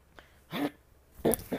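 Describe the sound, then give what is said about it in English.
Throat clearing from a person with an irritated throat and sinuses: a few short, rough bursts of moderate loudness, separated by quiet gaps, with no speech. “I'm getting clear in my throat a lot, sorry”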